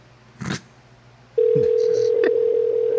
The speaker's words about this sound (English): You want me to start dialing numbers? Yeah, go ahead.